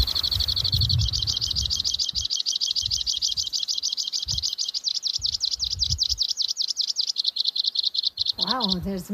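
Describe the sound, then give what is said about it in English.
Songbirds counter-singing in the dead of winter: a long, steady, high-pitched rapid trill runs through most of the stretch, and a brief run of different chirps enters near the end. “There's two counter singing with him. That's pretty cool. That's one of the only songbird that actually can nest in the dead of winter.”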